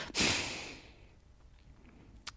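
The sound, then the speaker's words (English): A frustrated blast of breath pushed through the nose, imitated by a voice: one loud, rough burst of air that trails off into a fading hiss, with a faint short puff near the end. “her look, it was usually paired with a frustrated blast of nose breath like this.”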